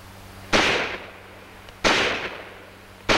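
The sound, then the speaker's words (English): A mortar fires three times at roughly even intervals. Each shot is a loud, sharp blast followed by a decaying rumble that fades before the next. “A mortar. Fire!”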